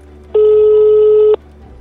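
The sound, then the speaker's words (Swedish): A single steady ring tone lasting about a second as a telephone number is dialed and the call rings through to a prosecutor's office in Malmö, loud and even, then stopping abruptly. “Slår ett nummer jag hittar som går till Malmö åklagarkammare.”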